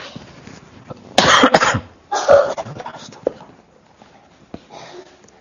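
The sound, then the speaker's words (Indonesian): A person coughs during a lecture, with two loud, harsh bursts close together, then a fainter one a couple of seconds later, against a quiet background. “ini agak terganggu sedikit batuknya.”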